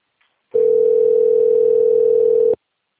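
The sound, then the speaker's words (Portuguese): Ringback tone of a telephone call that goes unanswered: one steady, loud, unbroken tone lasting about two seconds, with silence before and after. “Só que ninguém atende. Tô ligando pra...”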